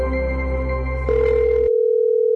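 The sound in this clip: A telephone line tone sounds as a call is placed: a low, buzzy tone with hum that narrows partway through to a single plain steady tone, with no voices.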